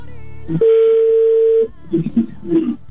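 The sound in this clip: Telephone ringback tone on a call waiting to be picked up: one steady, mid-pitched tone held for about a second, after which voices start talking over the line.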